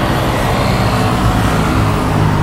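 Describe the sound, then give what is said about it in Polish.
Dense road traffic on a busy city street after 10 p.m., with cars and small three-wheeled vehicles weaving between them, forms a continuous loud rumble of engines and tyres with no clear breaks and no voices. “Godzina na zegarze po 22:00, a na ulicach taki ruch.”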